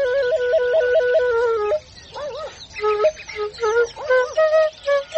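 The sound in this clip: A shepherd plays a homemade flute with a breathy, reedy tone. A steady wavering note with quick trills runs unbroken for the first part, then gives way to short, broken melodic phrases with sliding pitch.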